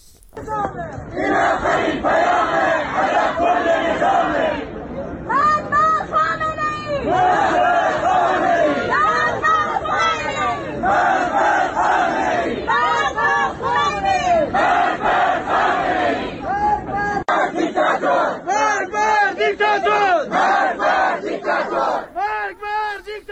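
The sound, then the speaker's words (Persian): A crowd chants at a fortieth-day graveside memorial in Marivan for a man buried at night under security pressure. Many voices chant loudly and continuously in rhythmic, repeated phrases throughout. “این صدای مردمی هست که رفتن برای مراسم 40 مختار احمدی که شبانه دفن شده بود و مراسم خاکسپاری نداشت.”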